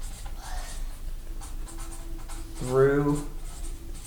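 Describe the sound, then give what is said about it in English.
A pen scratches across a writing surface during a lesson, faint, soft strokes under a man's steady talking, with a few brief bursts of voice over it. “We could write that.”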